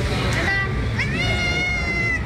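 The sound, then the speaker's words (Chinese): A station cat meows one long, drawn-out, slightly rising cry over a steady murmur of crowd babble and a low background rumble. “系好领巾，猫站长蛋挞准备上工。”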